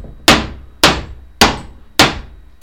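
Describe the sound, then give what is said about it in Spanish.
Hammer blows on a plastic chair: five sharp, loud bangs at a steady rhythm, each with a bright, cracking attack and a short fading tail, the last one cut off at the end. “es plástico y al pegarle con el martillo rebota para atrás con bastante fuerza.”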